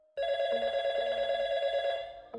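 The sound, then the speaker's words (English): A telephone ringing: one long, steady electronic ring tone with a bright buzzing timbre, held at even loudness for about two seconds before cutting off, with a short restart at the very end. “The phone kept ringing.”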